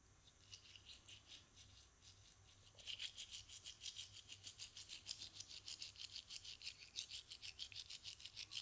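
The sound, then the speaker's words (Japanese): A toothbrush scrubbing the canine teeth with vertical strokes. Soft, quiet rubbing at first becomes a steady, rapid rhythm of many louder bristle strokes. “糸切り歯は少し磨きにくいから、縦方向に磨いてっと。”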